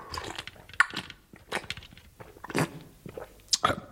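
Faint chewing and crunching of food, with irregular bites and mouth noises spread unevenly across the stretch.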